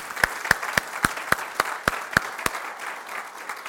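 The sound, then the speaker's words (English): A church audience applauding, with sharp, evenly spaced claps standing out above a softer bed of clapping throughout. “would you help me just give a round of applause for the people who served this week?”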